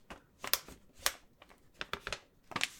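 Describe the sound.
Banknotes being counted out of an envelope: many crisp, papery flicks and rustles in an irregular run, with a few louder snaps standing out among softer crinkles.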